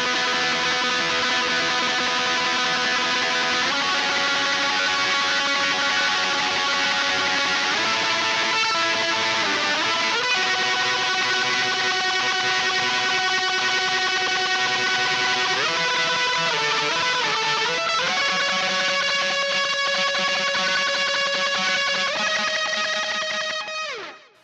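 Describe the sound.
Harsh, grating guitar solo EQ'd to push its trebly notes, a loud, distorted, sandpaper-like tone holding sustained notes that step up and down in pitch, playing alone before fading at the end.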